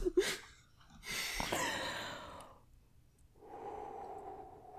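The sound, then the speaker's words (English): Snorting and breathy nasal sounds during a fit of crying laughter, a few rough bursts of air through the nose, fairly faint. “Are you going to snort?”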